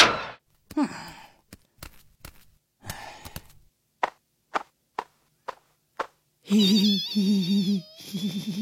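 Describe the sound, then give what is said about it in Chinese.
Knocking on a door: a series of sharp, dry raps spread irregularly over several seconds, each brief and separated by silence. “是谁偏偏这个时候来敲门？”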